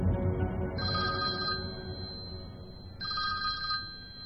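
A telephone ringing in two short bursts of bright electronic trilling, heard over a steady low background rumble.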